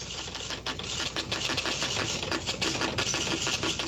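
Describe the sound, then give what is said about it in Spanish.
Rapid mechanical clatter of a news agency teletype machine printing wire news through the night: a dense, steady stream of typewriter-like strikes with no voices. “Un aparato que estaba ahí en cabina y toda la noche mandaba información nacional de prensa asociada, de todas partes.”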